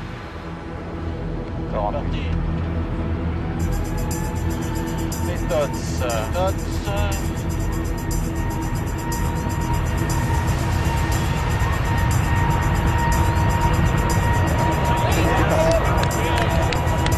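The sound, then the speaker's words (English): Aircraft engines throttling up to full takeoff power. A broad roar jumps sharply a few seconds in, then keeps building with steady whining tones running through it. “At 10:29 and 32 seconds, the throttles are opened.”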